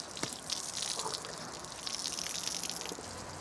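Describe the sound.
Water runs from a garden hose sprayed over an animal to cool it, a faint, steady hiss of spraying water that carries on throughout with small swells and dips.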